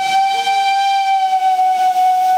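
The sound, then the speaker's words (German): A steam locomotive whistle sounds a departure signal: one loud, steady, shrill blast with a rich harmonic tone that holds without a break. “der Zugpersonal hat eben den Fahrauftrag gegeben und das Lokpersonal hat den bestätigt mit den Pfiffen und gesagt, so, jetzt geht's los.”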